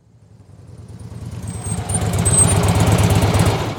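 A motorcycle engine gives a low, throbbing rumble that swells louder over the first two seconds, then holds steady, with no voices.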